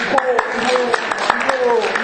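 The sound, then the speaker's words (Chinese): An audience clapping along at a concert encore call: a quick, even beat of sharp claps, about five per second, running under lively, excited talk. “你们跟我一起鼓掌啊！”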